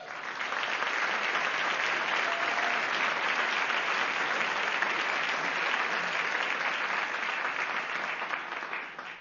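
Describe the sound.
An audience applauds to welcome a performer to the stage for a story reading. The clapping is thick and sustained for about nine seconds at a constant level, then tapers slightly at the very end.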